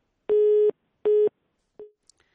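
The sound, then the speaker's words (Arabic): Busy tone after a disconnected phone call: two steady, even beeps of equal length, then a third beep cut short, followed by a couple of faint clicks. “اتصال انقطع”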